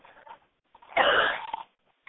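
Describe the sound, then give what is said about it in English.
A single harsh cough lasting about half a second with a short rasping tail, framed by faint breathy sounds before and after. “excuse my coughing”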